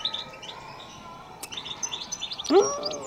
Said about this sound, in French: Les chardonnerets que vous possédez, vous les avez eus comment ?